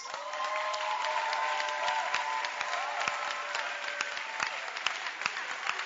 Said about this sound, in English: when I stand here like this, I feel we should clap again for the Bacenta leaders.